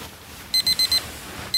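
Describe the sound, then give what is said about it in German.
A smartphone alarm goes off in the morning with four rapid, high-pitched beeps, a short pause, then another beep. “Am Morgen weckt mich mein Smartphone. Einen Oldschool-Wecker habe ich schon gar nicht mehr.”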